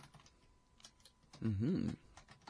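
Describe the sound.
Someone typing a blog entry on a computer keyboard: soft, rapid key clicks with a brief voice murmuring over them partway through.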